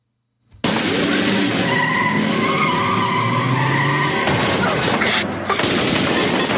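A car engine roars and tires skid as the car is started, thrown into reverse and driven hard on the gas. After a brief silence, the sound bursts in loud and continuous, full of harsh noise throughout.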